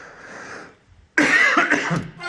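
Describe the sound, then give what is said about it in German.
A single short cough, loud and abrupt, bursts out after a brief quieter stretch of throat noise and trails off into breathy residue. “Dann kann ich mal eben kurz husten.”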